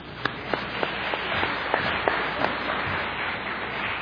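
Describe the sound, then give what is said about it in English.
A church audience at a Sunday worship service gives a small round of claps for a Tongan fellowship choir: about eight sharp, evenly spaced claps over a steady low murmur, then only the background. “I just want to welcome, this is a Tongan Fellowship Choir. I just want to see if you guys give us a small hand.”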